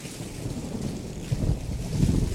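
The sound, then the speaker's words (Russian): Thunder rumbles overhead during a cucumber harvest, with rain coming: a steady, deep, low roll that swells louder twice toward the end. “При сборке урожая огурцов над головой начал грохотать гром.”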